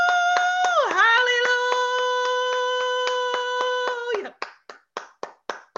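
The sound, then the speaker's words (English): An audience claps hands in a steady rhythm alongside a sustained held tone that dips in pitch early on, then several sharp claps continue alone once the tone stops. “Clap my hands right there.”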